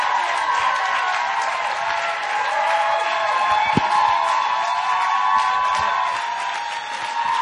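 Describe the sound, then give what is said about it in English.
Applause and cheering from a church audience welcoming a speaker to the stage: loud, sustained clapping mixed with whoops and crowd noise, holding steady throughout. “let's put our hands together in honor and welcome up Samunim”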